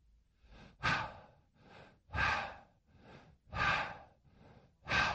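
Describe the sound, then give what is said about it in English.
Heavy rhythmic breathing: four loud, noisy breaths arrive at regular intervals, each followed by a softer, quieter breath, with no talk over them. “The sound from heaven is of a heavy breathing. Jesus Christ had told them, when they saw this, just to breathe in.”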